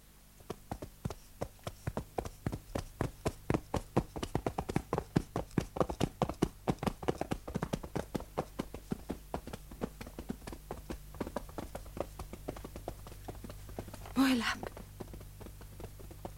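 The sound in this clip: Horse hooves pound fast as riders gallop away, making many rapid, rhythmic hoofbeats that stay loud throughout. A voice briefly calls out near the end.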